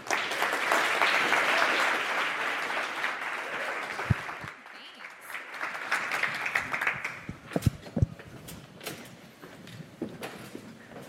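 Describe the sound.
Audience applause welcomes three speakers onstage: loud, sustained clapping fades after about four seconds, then scattered claps, a few knocks and people talking follow.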